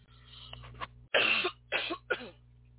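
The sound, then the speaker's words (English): A person coughing and clearing a catch in the throat: a short throat-clearing rasp, then a few harsh, loud coughs in quick succession, heard alone. “excuse me, got a catch in my throat.”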